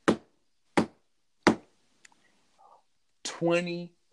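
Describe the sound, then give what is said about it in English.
Three sharp, evenly spaced knocks strike a hard surface, imitating a judge slamming a gavel down, then a few faint taps and a short voiced sound close the passage. “Judge is just slamming her hammer down.”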